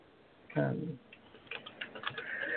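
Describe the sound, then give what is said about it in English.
Keyboard typing makes a run of light, quick clicks after a brief burst of speech. “Okay, I have to stop doing two things at once. I can't type and talk.”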